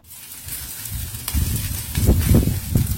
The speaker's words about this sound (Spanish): Este característico sonido que genera la carne mientras cede al calor del fuego y las brasas en el asador se escucha cada vez menos en la Argentina.